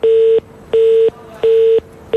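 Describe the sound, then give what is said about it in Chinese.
Telephone line tones as a call is placed: three identical short beeps at one steady pitch with even gaps between them, and a fourth starting at the end, loud and with nothing else heard. “我打他电话”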